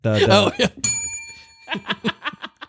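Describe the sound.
A bell rings once between stretches of talk, a bright metallic ding whose ringing tone hangs and slowly decays while people keep talking around it.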